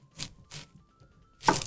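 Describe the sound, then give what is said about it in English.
Three crisp cuts of a sharp, inexpensive IKEA kitchen knife slicing through an onion, each a short, bright crunch separated by brief pauses, with the third cut the loudest. No voices are heard. “I like it with onions, which sounds like this.”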